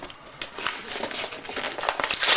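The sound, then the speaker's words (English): School books torn up during detention, heard as a run of rough, crinkling paper rips and crumples, fairly faint and irregular, growing a little louder at the end. “Hey, in fact, let's rip up your books.”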